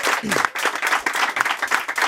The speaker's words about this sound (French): On reçoit Denis Coderre qu'on applaudit.